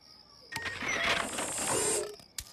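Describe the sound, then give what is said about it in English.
A Halloween candy machine whirs and rattles as it dispenses a treat after a button press: one sustained mechanical clatter lasting under two seconds, ending with a short sharp click. “Cool, a candy machine.”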